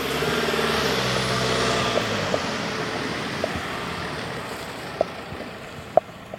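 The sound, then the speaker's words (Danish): A white van arrives on a residential road, its engine a steady low rumble with faint whining tones early on, punctuated by a few sharp knocks and clicks. “Nu kommer der en hvid varevogn.”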